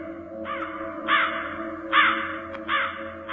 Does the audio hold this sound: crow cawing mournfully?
yes

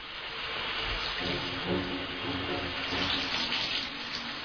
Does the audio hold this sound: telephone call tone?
no

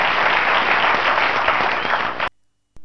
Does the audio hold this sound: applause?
yes

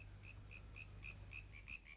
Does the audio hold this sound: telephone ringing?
no

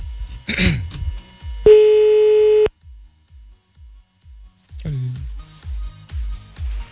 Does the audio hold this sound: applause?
no

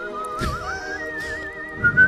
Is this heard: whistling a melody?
yes

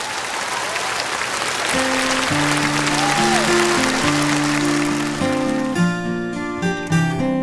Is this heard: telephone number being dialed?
no

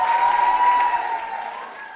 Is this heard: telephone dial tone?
no

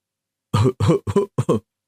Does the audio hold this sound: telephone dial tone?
no

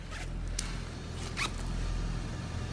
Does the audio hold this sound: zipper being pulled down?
yes

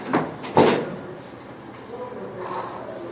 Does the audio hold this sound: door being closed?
yes

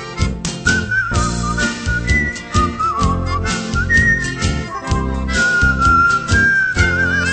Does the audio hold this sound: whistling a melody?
yes

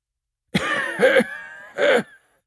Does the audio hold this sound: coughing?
yes

